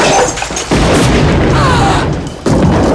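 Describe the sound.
Gunshots in an office firefight: heavy, booming reports with a couple of sharp onsets, each followed by a long, loud rumbling tail that fills the short clip.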